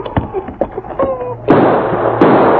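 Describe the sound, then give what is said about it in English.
Two loud gunshots ring out in a radio drama shootout among rocks, each a sharp crack with a long noisy tail, after a brief voice. “Sergeant, I think I got him. He stood up to shoot at you, and I saw him fall.”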